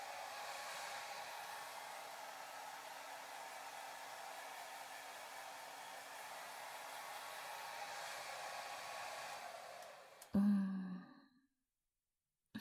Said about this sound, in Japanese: 毛の流れもしっかりさせつつ、乾かしてと。